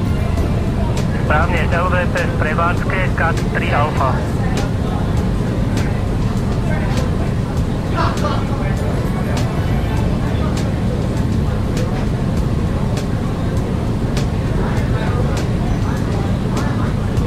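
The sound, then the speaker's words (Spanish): Steady, loud engine roar of an airplane accelerating and climbing in a flight simulator video game, a dense continuous drone lasting the whole stretch while a voice talks over it. “El avión va a acelerar. Va a levantar la altura, va a establecer la altura.”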